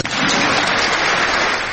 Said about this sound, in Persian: به به همه هم واسش دست زدن.